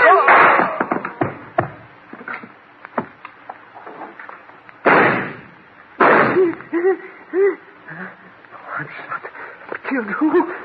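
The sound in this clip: Gunshots in a staged drama: two loud, sharp bursts ring out a second apart amid lively voices, with scattered shorter pops around them under the talk.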